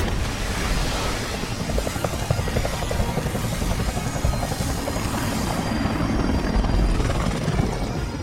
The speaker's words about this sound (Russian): С вертолета сбросили воду.